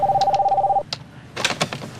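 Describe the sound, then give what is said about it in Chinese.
A telephone rings in an industrial workshop where a bearing is being repaired: a single steady, warbling electronic ring tone lasting under a second, followed by a few soft clatters and handling noises. “您的电话”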